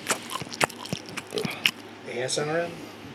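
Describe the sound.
Chewing prosciutto: moist mouth clicks and smacks come in a few bursts, followed by a voice speaking.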